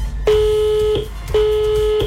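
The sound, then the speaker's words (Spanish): Ringing tones of a telephone call being placed to a contest winner: two steady, mid-pitched electronic tones of equal pitch, each lasting under a second, separated by a short gap, fairly loud and with no voices. “Queremos, por favor, hacerles escuchar la llamada junto a nuestra ganadora.”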